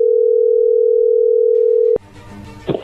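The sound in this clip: A steady telephone tone sounds while a call is being dialed, one unbroken pitch held for about two seconds, then cut off abruptly by a click and a brief jumble of mixed noise.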